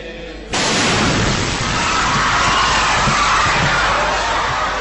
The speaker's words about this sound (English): A green car containing a bomb has just pulled up outside the church. Security cameras in the nave of the church record the fateful moment the bomb explodes.